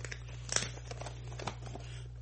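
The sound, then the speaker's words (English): Cardboard box being torn open, with a few rough, ripping bursts that stay faint over a steady low hum. “Just tearing this box all up.”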